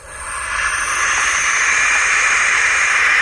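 Barn owl chicks hiss in one loud, sustained, breathy burst. It swells over the first half second, then holds steady and harsh until the end, like an angry snake.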